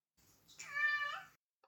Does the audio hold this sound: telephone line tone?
no